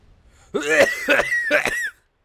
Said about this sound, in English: you can also hear my asthma acting up because I was running up and down the stairs a little bit ago